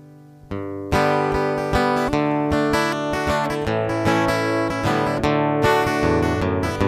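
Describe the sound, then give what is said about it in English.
Guitar strumming open D, A and G chords without a capo in a country-style one-four-five progression. Loud, ringing chords are struck in a steady, even rhythm with many strokes and no voices. “So instead of going from C, F, and G, I just took the capo off and went into D, A, and G, and it sounds like this.”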